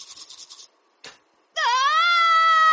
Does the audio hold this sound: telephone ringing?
no

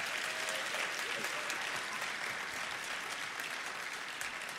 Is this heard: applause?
yes

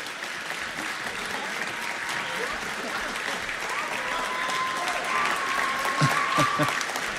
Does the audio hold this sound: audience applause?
yes

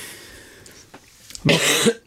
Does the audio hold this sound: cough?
yes

